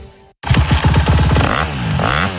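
Engine of a Honda motocross bike revving in bursts, with a raspy, buzzing tone that climbs and drops in pitch, loud and steady after a brief silent gap at the start.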